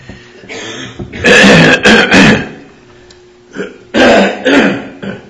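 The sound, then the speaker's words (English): A speaker about to begin a Bible study clears the throat in rough, raspy, forceful bursts. They come in two loud clusters of a few bursts each, separated by a short quiet pause. “If I can get my throat to stay clear long enough this morning”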